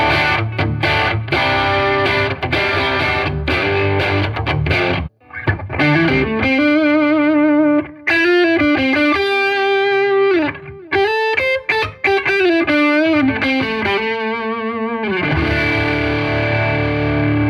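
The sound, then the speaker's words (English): High-gain distorted electric guitar on the single-coil middle pickup setting, both pickups together, plays chugging palm-muted riffs, then ringing sustained notes and bends, loud with a few short breaks between phrases. “It's actually a very passable single coil tone, even at high gain, which is great. It's the middle pickup both together.”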